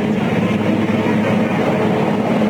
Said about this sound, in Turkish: Çelik kanatlar havada gösterileri sürdürüyorlar.